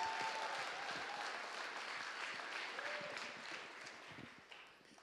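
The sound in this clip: Sustained audience applause welcoming a speaker: a dense, steady clatter of many hands clapping that gradually thins and fades toward the end.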